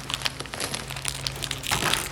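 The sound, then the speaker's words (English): Plastic wrapping crinkles as it is pulled off a large box: a continuous rustle broken by sharper crackles, with a low steady hum underneath. “Let's take the plastic off.”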